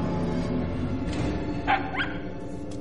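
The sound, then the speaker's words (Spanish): A dog bringing a ball gives a couple of short, faint yips or barks in quick succession near the end, over a quiet steady background. “El perro le trae una pelota.”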